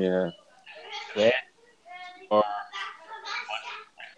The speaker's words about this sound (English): I do apologise for the ever increasing noise in the background. I'm going to go and shout at these toddlers in a minute.